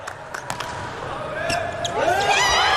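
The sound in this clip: An ace serve in an Italy vs Brazil volleyball match: a few sharp slaps of the ball being struck and landing, under a commentator's continuous talk.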